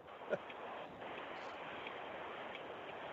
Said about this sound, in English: Sounds like she's still driving though.